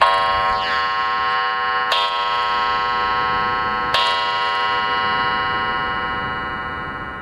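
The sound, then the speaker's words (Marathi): A clock chimes the hour, a faulty clock that strikes one stroke more than the time. It gives three loud, evenly spaced strikes about two seconds apart, each a bright ringing tone that hangs on and slowly fades between blows. “तीन वाजलेत. अरे घड्याळाची गंमतच आहे बघ माझ्या. तीन टोले पडले म्हणजे दोन वाजलेत असं समजायचं.”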